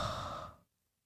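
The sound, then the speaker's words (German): A deep breath released as a single long, breathy sigh that stays loud, then quickly fades to silence after about half a second. “Und dann einen tiefen Atemzug nehmen.”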